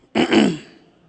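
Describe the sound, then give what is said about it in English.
A single rough throat clearing during a church sermon: one gravelly burst that swells, then trails off within about half a second into near quiet. “A couple people clearing their throat.”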